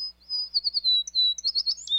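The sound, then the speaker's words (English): American tree sparrow calls: a run of thin, high, sweet chirps and warbling notes, fairly quiet, repeating in quick succession over faint low background hum, with no voices. “Despite their name, American tree sparrows stay close to the ground.”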